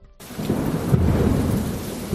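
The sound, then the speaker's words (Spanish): Thunder rumbles with heavy rain during a storm in Huelva under an extreme weather alert, a loud, continuous low roar that swells in after a brief quiet start and holds steady throughout. “Hemos tenido lluvias, hemos tenido tormentas, rayos, truenos”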